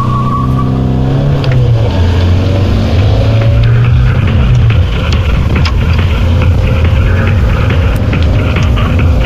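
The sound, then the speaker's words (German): A car is driving, its engine a loud continuous droning hum with road noise; the engine tone drops lower partway through, then the steady rumble carries on to the end with no voices. “Digga, wie lange fahren wir eigentlich noch nach Langenhagen?”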